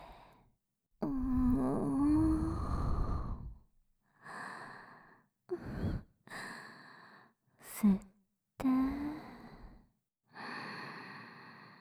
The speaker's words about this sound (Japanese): 吸って ゆっくり息を吐いて、